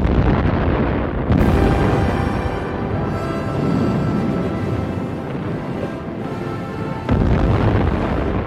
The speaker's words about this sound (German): Die Pulverkammer flog in die Luft.